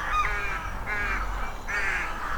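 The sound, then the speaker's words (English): Rooks cawing at a farmland rookery of about 20–30 untidy stick nests, three harsh, grating calls in a row, fairly loud over a steady low rumble. “That's a real typical sound of the farmland in across the whole Clifton Island. They're quite rudimentary nests,”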